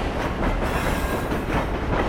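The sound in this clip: A train runs along the tracks with a dense, steady rumble and a faint rhythmic clatter of wheels, unbroken throughout, with no voices.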